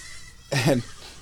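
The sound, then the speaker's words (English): A baby goat bleats once among a large herd of young goats: a single short, wavering cry, brief and alone against a quiet background. “And now I'm surrounded by millions of baby goats. Or at least, you know, 5 dozen baby goats.”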